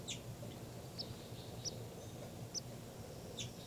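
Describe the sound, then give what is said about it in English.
Faint, high chirping calls from birds at a nest, several short, sharp notes spaced out over a soft, steady background hiss. “I'm at the nest. Definitely hear the calls.”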